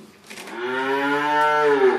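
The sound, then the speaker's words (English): Calves mooing at feeding time on a dairy farm: one long, loud, full-bodied moo that holds a steady low pitch for well over a second, heard alone. “where calves moo expectantly at feeding time”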